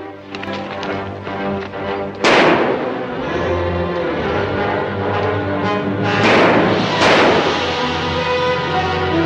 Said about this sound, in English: Then he and Monk ride away under a hail of carefully aimed bullets from the officials on the train.